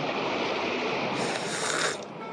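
Sea waves surge in stormy weather with hail and rain, a dense, steady roar of churning water that swells briefly louder before easing back.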